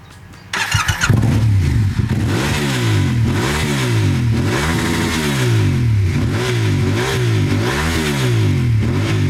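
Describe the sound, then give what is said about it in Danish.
A Yamaha motorcycle engine cranks and catches, then runs loud and throaty while being revved again and again in a steady rising and falling cycle. There is no talk. “Verden rundt har han kørt, først på Honda og så på Yamaha. Den han kører på nu, det er den her.”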